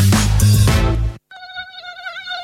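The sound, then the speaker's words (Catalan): A tiger mosquito buzzes with a thin, high, wavering whine in the second half, coming in right after a brief loud burst of another sound that cuts off sharply. “Compte, el mosquit tigre ja arriba.”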